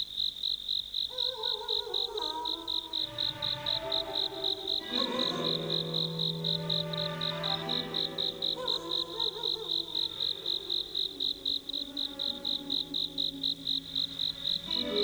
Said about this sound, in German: Die Nacht war sommerlich warm. Ganz in der Nähe zirpte eine Grille.